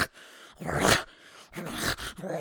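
A growling monster sound effect for a creature called the howler in a tabletop role-playing game: two rough, raspy snarling bursts separated by a short gap, then a softer third growl.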